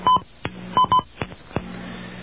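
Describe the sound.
Touch-tone telephone dialing tones: a quick run of short, pure beeps at uneven intervals, fairly loud, followed by a faint steady line hum.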